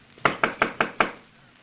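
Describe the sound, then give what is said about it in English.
Five sharp knocks sound on a cabin door, evenly spaced and moderately loud, each with a brief hollow ring before the room falls quiet. “There must be someone here. We will knock before we go in.”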